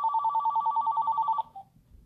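A telephone ringing with a fast, even electronic trill of many rapid pulses that stops abruptly, followed by a faint low rustle.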